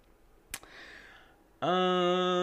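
A computer mouse clicks once, a single sharp tap over faint background hiss, followed after a pause by a sustained buzzing tone that runs to the end.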